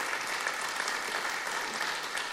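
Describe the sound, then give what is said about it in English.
Audience applause at a church service, a dense, steady patter of many hands clapping that holds evenly for the whole stretch. “Let's give Kim a round of applause.”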